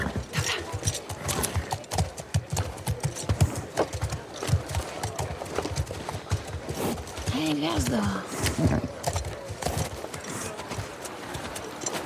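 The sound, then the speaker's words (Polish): Horse hooves clip-clop in a video game, with many steady hoof strikes in a dense, busy sound mix. “O, zobaczcie, kogo przywiozłem. Mamy koniki.”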